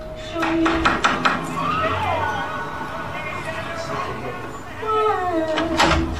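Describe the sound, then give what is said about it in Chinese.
Knocking on the door of a residence: a few quick raps near the start and a few more toward the end, with people talking in between. “他来到蒂姆男友的住所，从窗外探望了几眼，然后敲了敲门。”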